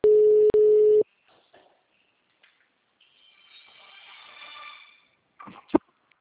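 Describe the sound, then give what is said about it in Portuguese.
An outgoing telephone call's line tone sounds as two short steady mid-pitched beeps back to back. Near-silence follows with faint scattered noise, then a sharp click near the end. “Tô ligando, tá?”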